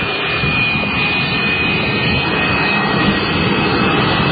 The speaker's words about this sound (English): That's the sound of a jet.